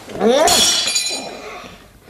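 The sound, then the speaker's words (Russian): A glass carafe breaks with a bright crash. Tinkling, ringing shards trail off over about two seconds, and a voice sounds briefly over the start. “Разбил графин, и тебя разобью.”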